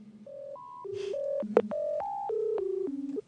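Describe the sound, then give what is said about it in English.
A telephone number being dialed on a touch-tone keypad: many short, steady beeps at changing pitches follow one another quickly and evenly, loud and clear, with no voices. “Well, let's do it. Let's call.”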